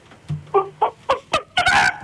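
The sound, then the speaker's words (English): A caller's voice imitates a chicken clucking: a quick run of short, sharp clucks in an uneven rhythm, ending in a longer, drawn-out squawk, loud and alone with no other talk. “give us your best chicken. Go on.”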